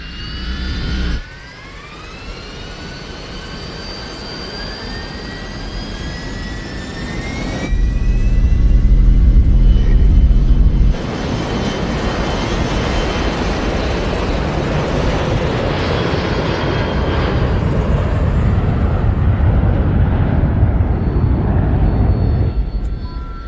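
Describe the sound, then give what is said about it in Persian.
An airliner's jet engines spool up for takeoff on runway 4, opening with a whine that climbs in pitch. A loud, broad roar then surges in and holds steady for about twenty seconds. “کاکتوس 1549 باند شماره 4 برای پرواز آمده است. کاکتوس 1549 آمده پرواز. تیکاف خودکار فهم شد.”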